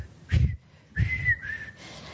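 A person whistles two short, clear phrases at a steady high pitch, separated by a brief pause, with soft low thumps beneath them.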